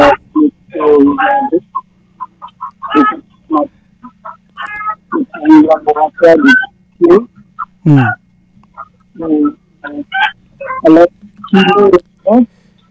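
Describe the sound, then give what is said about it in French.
Hens clucking during a phone call, with many short, irregular, loud clucks and calls in quick bursts over a steady low hum. “On entend beaucoup les poules chanter, on entend beaucoup le coq, mais on t'entend pas.”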